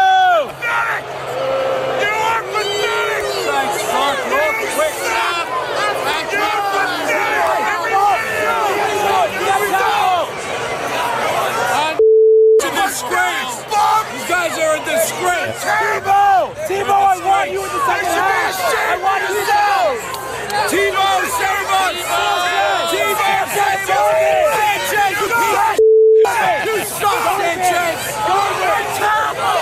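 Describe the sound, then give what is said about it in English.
A crowd roars in the Jets stadium tunnel at a football game, a dense, loud wall of shouting and yelling voices that runs without pause, broken twice by short steady tone bleeps. “we have said that Art Briles resides in a place that sounds like what that Jets tunnel sounded like at that moment.”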